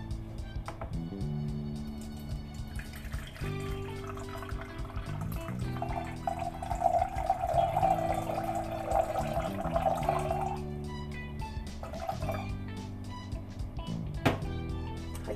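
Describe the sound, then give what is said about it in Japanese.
Hot water is poured onto tea leaves, about 200 cc at a time, making a steady trickling stream that lasts several seconds mid-clip over soft music underneath. “ではここに 200cc ずつお湯を注いでいきたいと思います”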